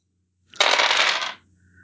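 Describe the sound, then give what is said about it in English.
Dice are rolled during a tabletop car-combat game, making one short clattering rattle that lasts under a second, with no talk over it. “Just gonna roll these dice now.”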